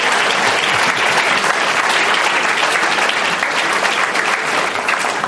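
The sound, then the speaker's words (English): Audience applause at a live event after a climate segment: loud, dense, continuous clapping that holds an even level throughout. “Let's give them a round. Thank them for getting through that climate spotlight.”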